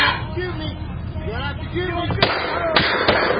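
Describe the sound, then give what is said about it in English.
Gunshots fired at a car: a few sharp, loud cracks in quick succession near the end, over voices and a dense rumbling background. “Are they shooting him? Did they shoot him? Yes, they did shoot him.”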